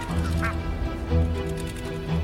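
Geese honking on water, giving repeated nasal, quacking calls over a steady low drone.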